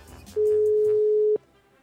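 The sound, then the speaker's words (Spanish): Telephone line tone as a call is dialed: one steady mid-pitched tone held for about a second, cut off by a click, with faint background noise around it. “Vamos. Estamos marcando.”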